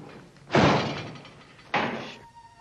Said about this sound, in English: She slams the fridge door shut and marches over to the kitchen counter